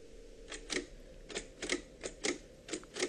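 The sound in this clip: Paper being rolled into a Braille writer, giving a series of sharp mechanical clacks in an uneven rhythm. The clicks are fairly quiet and come without any talk.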